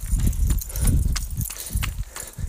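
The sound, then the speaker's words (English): Running footfalls on an outdoor run at a quickened pace, with many steady rhythmic thuds over a low rumble. “I don't know if you can hear it in my footfalls, but we just picked it up a bit.”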